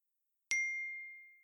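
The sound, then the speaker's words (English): A single bright notification chirp from a mobile phone rings out alone, striking sharply and leaving a clear high tone that fades slowly over about a second. “The phone chirps again.”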